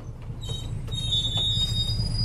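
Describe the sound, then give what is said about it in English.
A train pulls into a station at the end of a ride through the jungle toward Machu Picchu, with a steady rolling rumble and thin, high metallic wheel squeals running above it. “Ladies and gentlemen, we are arriving to the train station.”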